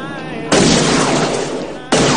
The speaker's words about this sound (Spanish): El moreno dispara al techo del coche.